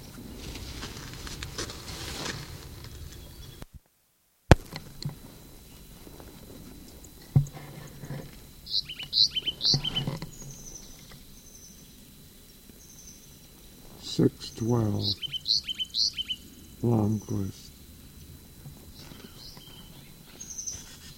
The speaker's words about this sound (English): Sycamore bird. First peep.